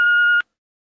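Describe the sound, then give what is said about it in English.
A voicemail tone: one steady, clear electronic beep at a single pitch, lasting about 0.4 seconds, loud and alone before silence. “Sorry I'm unable to take your call at the present moment. Speak after the tone.”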